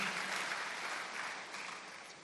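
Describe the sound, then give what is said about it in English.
A church audience claps their hands in steady, dense applause for a couple of seconds, fairly faint and tapering slightly toward the end, with no voices. “Can you clap your hands for Jesus for that?”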